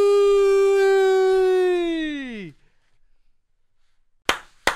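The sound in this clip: A film-style clapper or clap sound effect gives two sharp, loud snaps in quick succession, coming after a long sustained tone that sinks in pitch and cuts off, with near silence between.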